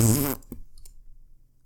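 A fart: a short, loud, low buzzing blast of about a third of a second, followed by a couple of faint soft ticks and quiet.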